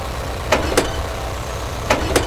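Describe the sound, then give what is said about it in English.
Car engine idling in a low, steady rumble as the car is shifted into reverse near the edge of a pool, with four brief, sharp clicks over the drone. “Wheels are about a centimeter from going into the pool. I want you to be very still and calmly change the gears to reverse. Reverse.”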